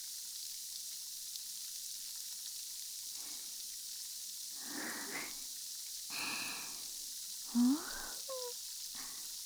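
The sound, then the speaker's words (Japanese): Carbonated water fizzes softly, a faint, continuous bubbling hiss with a few slightly louder bursts of crackling effervescence, heard alone and without any talk. “ほら、ゆったりして目を閉じて、炭酸水の気持ちいい音に集中して、”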